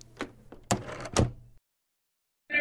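A door falling shut into its lock at a base, heard as a few light clicks followed by two heavier thuds close together, then a sudden silence.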